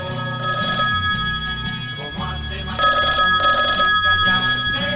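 A telephone rings for an incoming call during a live call-in radio comedy show, with steady, bright ringing tones over a lower layer of other sound.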